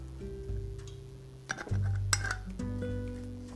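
Glass bottle clinking as it is handled: a few short, bright clinks and knocks, fairly faint, clustered in the middle of the stretch over a steady low hum.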